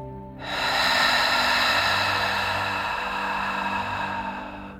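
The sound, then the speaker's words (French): A long, steady breath, drawn in and let out slowly during a meditation exercise, sounds as a soft, airy hiss that lasts several seconds over low, sustained musical tones. “Inspirez profondément par le nez et expirez par la bouche.”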